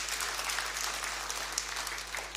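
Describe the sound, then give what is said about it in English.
Applause for the worship team at a Sunday church service: a steady, fairly faint patter of many people clapping over a low mains hum, without talk. “Thank you very much, worship team. Can we give them a round of a hand?”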